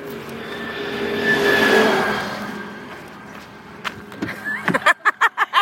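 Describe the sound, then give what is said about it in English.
A fancy white Volvo car pulling up, its broad engine and tyre noise swelling loud and then fading as it slows, followed by a few short choppy bursts. “A fancy white Volvo rolls up next to me.”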